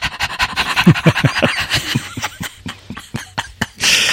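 A person imitates rapid panting, making many quick, short huffs in a steady rhythm that thin out and slow near the end, then finishes with a longer breathy rush.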